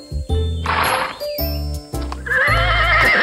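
A horse about to be ridden to a town fair neighs loudly twice, each shrill whinny standing out over a steady, low, rhythmic background.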